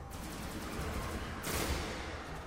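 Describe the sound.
Gunfire in a video game trailer shown at a games-expo press conference, heard as a sustained, dense barrage of rapid shots that surges louder for a moment before settling back.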